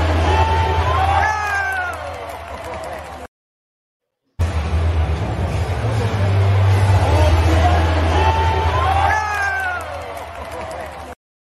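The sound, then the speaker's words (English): A crowd at an Eagles football game cheering as dogs run on the field, a loud, sustained roar with shouts and whistles, interrupted by a short silent gap, with voices heard over the din. “I think that was the biggest cheer of the night.”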